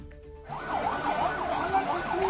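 Ambulance sirens wail as the vehicles arrive at the site of a car-bomb explosion in Azaz, northern Syria, rising and falling in repeated cycles over steady background noise.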